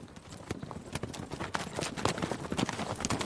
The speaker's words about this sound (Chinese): 这时他听到有一个人骑着马在大路上朝着屋子走来